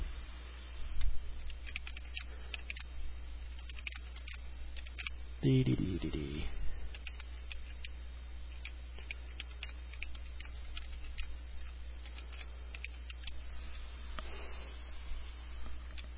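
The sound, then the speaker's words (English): A keyboard clicks faintly as someone types a quick message, with many light, irregular keystrokes throughout and a couple of slightly louder knocks. “Excuse me while I type.”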